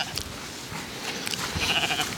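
Faint bleat of a young lamb, a short wavering cry near the end rising above soft background noise.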